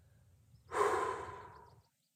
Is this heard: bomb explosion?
no

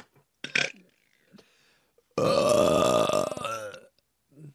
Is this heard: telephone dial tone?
no

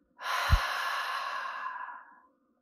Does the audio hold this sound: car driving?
no

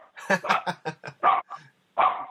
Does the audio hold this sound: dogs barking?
yes

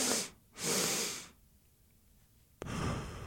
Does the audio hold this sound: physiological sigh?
yes

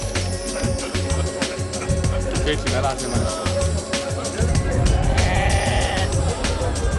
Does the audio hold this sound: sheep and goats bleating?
yes

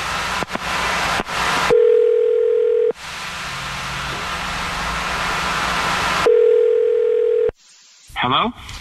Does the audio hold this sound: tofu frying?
no

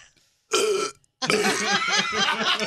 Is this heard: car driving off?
no

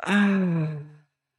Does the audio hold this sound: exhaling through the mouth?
yes

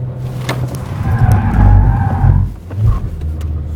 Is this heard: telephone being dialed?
no

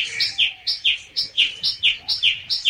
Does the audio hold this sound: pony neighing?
no

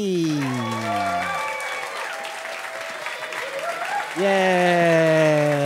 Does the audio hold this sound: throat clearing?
no

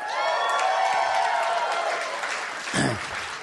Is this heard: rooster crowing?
no

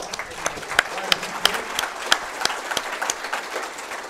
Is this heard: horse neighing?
no

